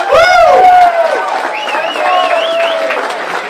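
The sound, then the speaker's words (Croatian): Applause and cheering from a large crowd of up to ten thousand people at an outdoor charity gathering for children in Visoko. Loud voices shout and cheer over a softer bed of clapping, strongest at the start and then easing slightly. “Veliki aplauz za sve nas zajedno!”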